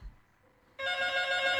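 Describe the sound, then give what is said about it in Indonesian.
A telephone rings for an incoming call: a bright, steady electronic ring with a buzzy tone that starts abruptly after a near-silent pause and continues to the end, with no talk. “langsung nyambut telepon mawon iki.”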